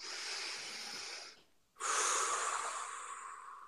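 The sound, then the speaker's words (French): One deep breath: a long, hissing inhale, a brief silent pause, then a slightly louder, drawn-out exhale, with no talking. “Allez, une respiration.”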